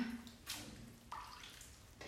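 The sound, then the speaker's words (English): Water splashes and runs as a face mask is rinsed, with a few faint, short washing bursts over a low steady background. “And I'm sorry, I'm rinsing my face mask.”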